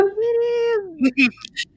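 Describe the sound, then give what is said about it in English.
A cat, aggressive after catnip, lets out a long drawn, tonal yowl that drops in pitch at the end, followed by a few short bursts of sound. “Sorry. That was my cat. I told you. He gets a little aggressive after the catnip.”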